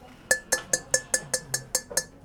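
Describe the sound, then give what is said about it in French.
Fired clay roof tiles struck to test whether they are properly fired give nine bright, ringing clinks at a steady, even rhythm, each with a short glassy decay. “Euh, par exemple, faire sonner des tuiles pour savoir si elles sont bonnes, pas, cuites, pas suffisamment cuites.”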